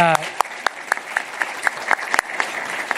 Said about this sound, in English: I think it deserves a round of applause